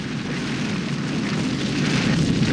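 A flamethrower sets spilled liquid on a floor alight with a broad, continuous whooshing roar of fire that holds steady and swells slightly toward the end.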